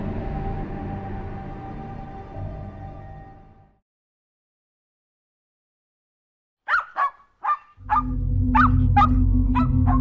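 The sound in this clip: A dog barking joyfully with a quick run of short, high, yelping barks after a stretch of silence, soon joined by a low, steady droning sound.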